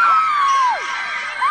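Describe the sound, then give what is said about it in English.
Wildly cheering crowd, a loud sustained roar of voices with a shrill high cry that holds, then slides downward, before another rises near the end. “And the crowd goes wild.”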